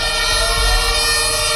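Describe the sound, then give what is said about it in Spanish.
Fire engine sirens blare as crews arrive at a hotel fire, a loud, steady, layered wail with a low engine rumble beneath and no voices. “Este es el sonido de esa llegada de los bomberos.”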